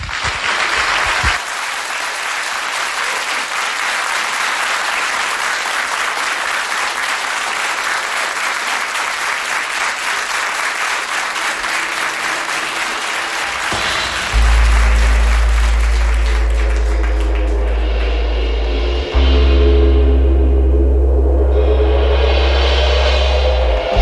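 An audience at a concert applauds as a singer is called to the stage. The dense, even clapping lasts around fourteen seconds before giving way to low, droning musical tones.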